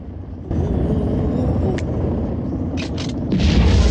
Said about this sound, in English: The rocket shakes as jets of fire shoot out of the bottom.